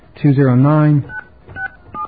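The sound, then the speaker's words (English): Touch-tone keypad tones as a phone number is dialed to reach voicemail: a drawn-out voiced sound comes first, then a few short, spaced electronic beeps. “I guess it's time now to check our voicemail. Do-do-do. Yeah, it's basically turned into a routine. So let's give ourselves a call.”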